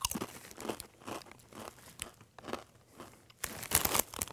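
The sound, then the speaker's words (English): Crunching of Blazin' Buffalo Ranch Doritos tortilla chips being bitten and chewed: a run of many crisp, brittle crackles in uneven bursts, growing louder and denser toward the end. “All right, let's try this. Blazin' Buffalo Ranch Doritos.”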